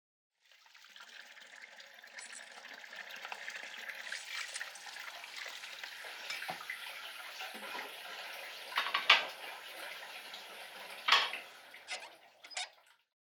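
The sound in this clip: Running tap water pours steadily while dishes are washed at home, a soft continuous hiss with scattered light knocks and a few sharper splashes near the end.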